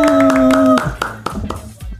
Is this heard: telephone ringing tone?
no